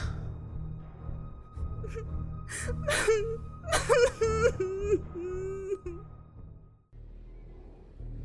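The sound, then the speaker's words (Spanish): A woman cries inconsolably: broken, wavering sobs and whimpers rise over a steady low hum, then fade and cut off toward the end. “Ella llora desconsolada y Diego la abraza”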